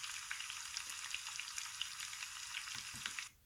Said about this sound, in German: Koch ein Festessen, einen guten Braten.